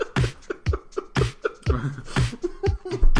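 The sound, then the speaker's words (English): Close-miked chewing of tacos by a few people: many irregular, crunchy clicks and wet mouth smacks, fairly loud and uneven in rhythm, with no talk. “This is the sound of us masticating into a microphone.”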